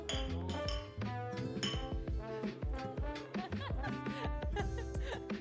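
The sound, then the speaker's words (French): Glass clinking in an organic cosmetics laboratory: many bright clinks and ringing pings overlap in a busy, continuous mix, with voices faintly present underneath. “Ce que vous entendez là, c'est l'ambiance chaleureuse des laboratoires Serra.”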